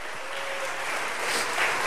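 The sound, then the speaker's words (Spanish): A church audience applauds: continuous, dense clapping at a steady, moderate level with no break. “Dale un aplauso al Señor, la iglesia.”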